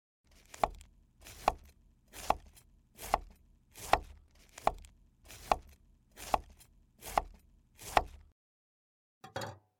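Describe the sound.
Cabbage being chopped with ten steady, evenly spaced strokes of a knife, each a sharp percussive thud, followed after a pause by one brief final knock.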